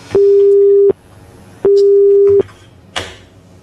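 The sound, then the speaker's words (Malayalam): A telephone busy tone sounds after a call is cut off: two long, steady mid-pitched beeps separated by a pause, followed by a short click and burst of noise at the end. “Phone കട്ടായി പോയി.”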